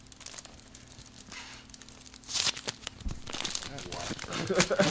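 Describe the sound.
Paper crinkles and rustles as a mailbag and a letter are handled, producing irregular crackling bursts that grow denser toward the end, under people talking.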